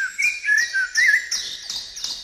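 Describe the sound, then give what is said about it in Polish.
A blackbird sings its flute-like evening song at sunset as a city quietens, with clear whistled phrases of several notes that rise and fall. Brighter chirps mix in, with no talking. “Wieczorem śpiewają kosy i śpiewają podróżniczki. I rzeczywiście, kiedy miasto zaczyna troszeczkę cichnąć, słońce zaczyna zachodzić i w tej chwili słychać takie flety kosa.”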